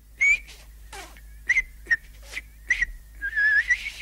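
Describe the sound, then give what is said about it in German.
Artistic whistling produces many short, bright, high chirps separated by breathy gaps, then ends in a quicker warbling run of notes. “Pfeifen ist eben eine Kunst, die man obendrein auf so unterschiedliche Weisen virtuos betreiben kann. Mit Fingern, Lippen, Gaumen, Zähnen und pfiffigem Sendungsbewusstsein auch.”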